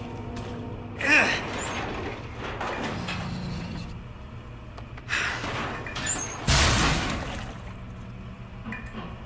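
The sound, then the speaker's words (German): A heavy cabinet is pushed aside in a police station, making a few rough scraping and grinding bursts separated by steadier low rumble, with the loudest scrape coming near the end. “Ein Schrank versperrte den weiteren Weg. Er schob ihn zur Seite.”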